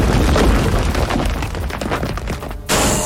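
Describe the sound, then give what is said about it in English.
An explosion from a stone pyramid attack move in a turn-based monster battle video game: a loud, rumbling crash with crackling bursts that lasts almost three seconds, then cuts off abruptly to a thinner, brighter sound. “Soul Doctor used Stone Pyramid.”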